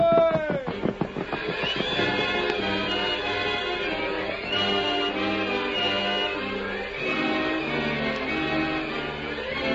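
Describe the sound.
The horse Silver gives a loud neigh with a falling pitch at the start, followed by sustained, swelling music that carries on to the end.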